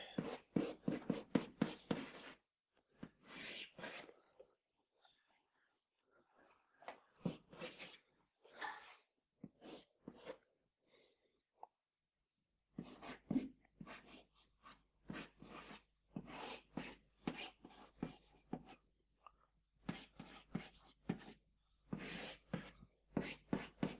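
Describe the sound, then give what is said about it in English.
A pen draws a diagram on paper, giving faint, scratchy strokes in many short bursts separated by brief pauses and one longer quiet gap. “So we just start drawing the diagram for this product, for example.”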